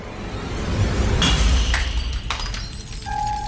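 A small liquid-filled glass flask falls to the floor of an entrance hall and shatters with a sharp, bright crash, followed by scattered tinkling fragments settling.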